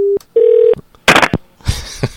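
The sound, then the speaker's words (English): A telephone handset is picked up and slammed down on a call, heard as short, steady line tones followed by two rough, clattering bangs. It is loud and abrupt, with no talk. “she's just picking up and slamming down the phone”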